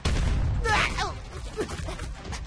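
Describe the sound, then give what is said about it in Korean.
A cannon fires at a dinosaur during an animated chase, a short loud burst with a crackling, booming edge, followed by quieter noisy sounds as voices speak. “오즈, 캐논으로 공룡을 제압해. 알았어. 바인라인 발사.”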